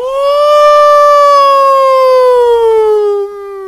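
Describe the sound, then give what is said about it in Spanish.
A person imitates a wild animal with one long, loud falsetto howl. It holds a clear, steady pitch and then slowly slides downward over about three seconds. “A ver, tienen que aullar. Porque acá los que vienen aullan como salvajes.”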